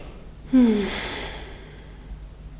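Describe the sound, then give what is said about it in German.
A single deep breath in and out during a stress-release tapping exercise: a breathy rush that swells sharply, then fades into a soft, drawn-out exhale, with no talk. “Und dann einmal tief ein- und ausatmen.”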